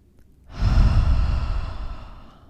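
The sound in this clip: A single deep, full-belly breath, a long airy rush that swells in quickly, holds and then slowly fades away over about two seconds, heard alone with no talking.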